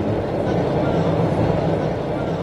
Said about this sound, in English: So here we are, on the subway, heading downtown.